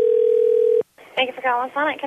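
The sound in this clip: A telephone tone sounds while a fast-food restaurant's number is being called. It hums steadily at one pitch for under a second, cuts off abruptly, and after a short gap a voice starts talking.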